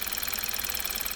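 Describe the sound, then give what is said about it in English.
A Kia Optima car engine running normally, giving a steady, even mechanical drone with a constant level throughout the short clip and no distinct pops. “This is the sound of a normal Kia Optima.”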